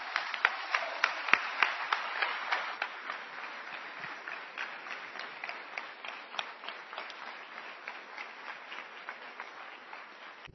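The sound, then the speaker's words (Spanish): Sustained applause from an audience at a religious sermon: dense, steady clapping with many overlapping sharp claps that holds at an even moderate level for the whole stretch, with no voices over it. “Den un aplauso, Señor.”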